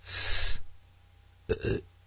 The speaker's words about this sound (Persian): آروغ میزنی؟ با آب آروغ میزنی؟ این آبش گاز داره بود